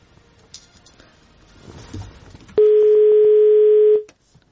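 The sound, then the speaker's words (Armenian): Telephone dial tone from a failed phone connection: after faint line noise, a loud, steady single-pitched tone holds for about a second and a half, then cuts off abruptly, with no talk. “հարգելի ունկնդիրներ, մենք կփորձենք կրկին հեռախոսակապ հաստատել իմ գործընկեր Անուշ Մուրադյանի հետ”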